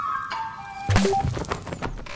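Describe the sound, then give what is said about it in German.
A water balloon bursts on the ground in front of a house with a single heavy, splashy thunk. A brief tonal lead-in comes first, and a short run of stepped rising tones sounds with the impact. “jemand hat gerade eine Wasserbombe nach mir geworfen. Direkt vor unserem Haus.”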